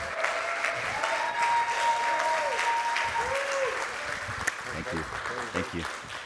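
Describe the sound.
An audience applauds a pastor at a church service, steady and fairly loud clapping that continues throughout before thinning slightly toward the end.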